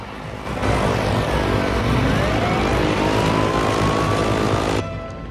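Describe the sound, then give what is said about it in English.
A convoy of cars sets off with a loud, steady engine roar. Faint whining tones rise through it before the sound drops off near the end. “They climb into a car and the convoy of vehicles sets off.”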